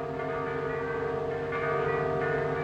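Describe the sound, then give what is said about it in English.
Bells ringing: a dense, steady wash of overlapping resonant tones that sustains evenly for the whole stretch, fairly loud, with no voices. “What are those bells for?”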